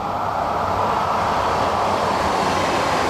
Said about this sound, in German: Das ist die Heidekrautbahn. Und eine U-Bahn kommt jetzt.